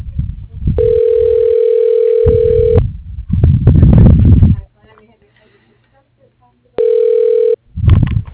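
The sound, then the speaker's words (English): Telephone tones on an office line while an extension is dialed: a long, steady, mid-pitched tone of about two seconds, then people talking, then a second, shorter tone followed by more talk. “If you know your party's extension, you can dial it now.”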